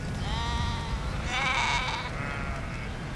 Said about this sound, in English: Eines ihrer Mutterschafe kommt zu ihr.